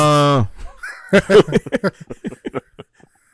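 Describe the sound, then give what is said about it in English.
Duck-like quacking, beginning with one nasal, drawn-out honk followed by a rapid run of shorter quacks that grow fainter and trail off. “What was that? That's a duck.”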